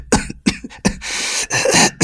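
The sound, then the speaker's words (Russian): A man coughs up phlegm in a run of harsh, wet bursts: a few short coughs, then longer rasping, throat-clearing hacks. No talk is heard. “Откашлял мокроту помятый бродяга с запекшейся кровью на руках.”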